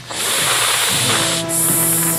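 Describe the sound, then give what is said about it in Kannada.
A snake hisses in two long, loud, steady bursts separated by a brief dip, with a faint low hum running beneath. “ಆಗ ಹಾವು ಹಿಂದೆ ಹೋಗಿ ಶಬ್ದ ಮಾಡುತ್ತೆ”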